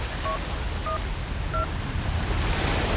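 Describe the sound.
A telephone keypad dials a call with three short, faint beeps spaced apart, over steady hiss.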